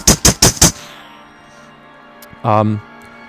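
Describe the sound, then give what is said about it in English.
An M16 rifle fires four sharp, loud shots in quick, even succession, followed by a ringing decay, then a brief harmonic vocal sound. “four M16 rifles, which sound like this.”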